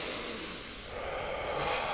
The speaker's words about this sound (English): can we get a deep inhale here?